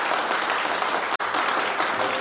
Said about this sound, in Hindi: चारों तरफ तालियों की गूंज फैल जाती है।